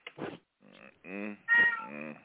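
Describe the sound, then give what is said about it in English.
A cat meowing in the morning, wanting food: a few drawn-out, tonal meows in close succession, the last ones louder, with no other sounds around them. “Hello, kitty. The kitty's up in the morning. Feed me. Feed me, mommy.”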